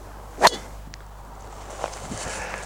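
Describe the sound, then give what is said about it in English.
A golf driver strikes a ball with one sharp, crisp crack, slightly higher-pitched than a standard driver. A faint tick follows, and then low background noise carries on. “In terms of the sound and the feel, this is probably a slightly higher pitch sound than the standard driver, but they both feel and sound pretty good.”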